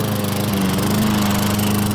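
A garden machine such as a lawn mower runs with a steady, buzzing engine drone, loud and unbroken for the whole two seconds.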